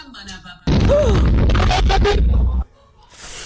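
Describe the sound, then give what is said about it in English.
A cracked television explodes after a lighter ignites one of its components. A sudden loud roaring burst lasts about two seconds and then cuts off sharply, with voices heard over and after it. “So, I think that TV was cracked, and he lit some component of it, and then it exploded.”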